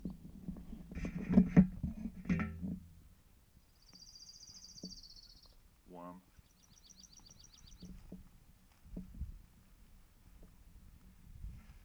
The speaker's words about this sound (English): orange-crowned warbler and Oregon junco.